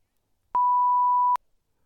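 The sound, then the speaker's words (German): A censor bleep: one steady, mid-pitched electronic tone lasting under a second. It starts and stops abruptly and stands alone, with no voice audible around it. “Ich kann es dir sagen und wir piepen das.”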